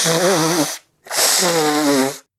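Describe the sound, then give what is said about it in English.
Someone with a cold blows their nose into a tissue in two long, buzzing, honking blasts separated by a short silent pause, loud and alone. “I'm sick of being sick. I'm tired of blowing my nose.”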